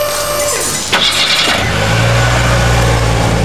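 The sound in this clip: A car engine starts and revs as a repaired car is driven out of a repair garage, then settles into a steady low engine drone with no voices.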